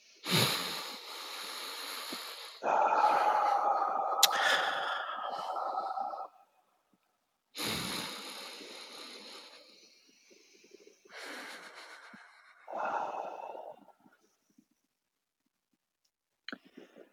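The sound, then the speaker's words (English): A few slow, deep breaths, each drawn-out inhale and exhale rushing loudly and airily, separated by short silences, with no talk over them. “I'm just gonna take a couple of deep breaths as I arrive into that space of my 5-year-old self.”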